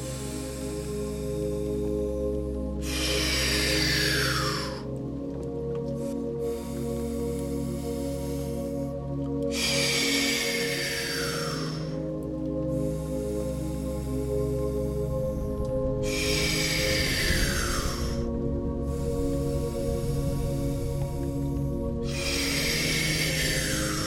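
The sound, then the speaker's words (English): Slow breathing in and out through the nose during a guided sleep breathing exercise, several long airy breaths repeating at an even, unhurried pace over a steady sustained tone. “Exhale through the nose. Begin 60 seconds with me. Take our first inhale. And out.”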